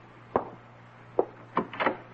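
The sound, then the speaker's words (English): A door being opened in a dramatised scene gives a few short, quiet wooden clicks and knocks, spaced unevenly, over a faint steady hum. “Go ahead, open the door, introduce me.”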